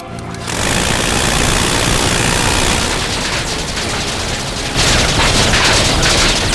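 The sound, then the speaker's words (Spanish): Heavy gunfire opens on a target during a military attack, a dense, loud, rattling barrage of rapid shots that runs almost without a break and swells slightly near the end. “Orden de abrir fuego, repito, orden de abrir fuego. Cambio. Aquí C01, recibido. Abriendo fuego.”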